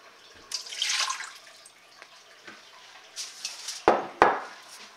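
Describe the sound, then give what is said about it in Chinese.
Water poured from a cup into an Instant Pot, heard as a soft splashing hiss, followed by two sharp metallic clanks from the pot near the end. “首先呢我們有個 instant pot， 跟住呢我們呢就倒一杯水下去”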